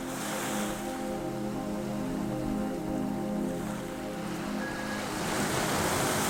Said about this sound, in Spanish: y el crepitar de las llamas se mezclan con la frescura de la brisa y el suave sonido del oleaje.